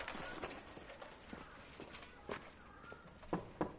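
A person's footsteps walk to a shop door at night after parking a bicycle. There are a few soft, irregular steps, separated by quiet gaps.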